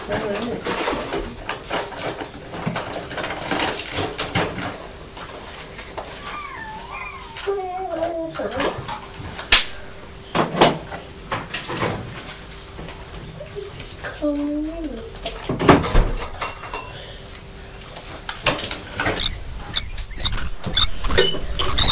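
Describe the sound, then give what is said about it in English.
A squeaky wheel gives a couple of brief, wavering, high squeals over a busy, rustling background, with faint noise throughout. “That's a jolly squeaky wheel.”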